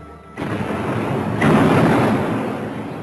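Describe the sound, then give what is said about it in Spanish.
A cannon-fire sound effect depicts the foreign troops' bombardment of Beijing in 1900 during the Boxer Rebellion. Two heavy booms merge into a loud, sustained, rumbling roar. “Los cañonazos lo asolan todo.”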